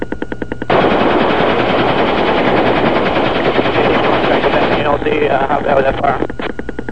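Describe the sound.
Gunfire during a combat approach: a loud, dense machine-gun rattle that runs almost continuously for several seconds.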